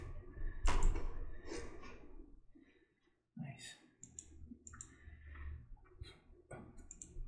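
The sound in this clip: Computer mouse clicking: several sharp clicks mixed with soft handling and rustling noises, separated by a near-silent gap.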